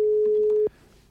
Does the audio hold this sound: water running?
no

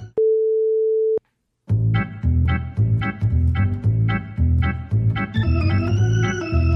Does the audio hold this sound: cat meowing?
no

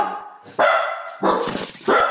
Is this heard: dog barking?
yes

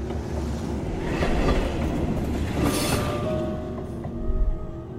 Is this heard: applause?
no

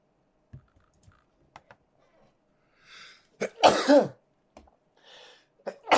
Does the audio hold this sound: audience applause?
no

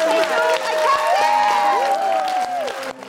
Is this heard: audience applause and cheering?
yes

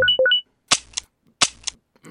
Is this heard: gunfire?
yes

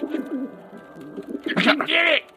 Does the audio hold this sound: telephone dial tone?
no

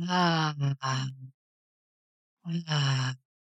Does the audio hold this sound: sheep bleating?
no

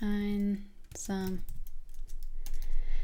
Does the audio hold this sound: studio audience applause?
no

